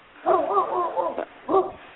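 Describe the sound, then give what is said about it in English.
Great Dane dog barking outdoors near a back deck: a few deep, harmonically rich barks and yips in short bursts with brief gaps, fairly loud and with no talk over them. “Yeah, that's my neighbor's dog, man. She's got three Great Danes. They're huge.”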